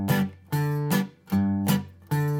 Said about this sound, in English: So essentially what I'll do is I'll hit the bass note on the low E string, and then a chunk rhythm, and then hit the A string at the fifth fret.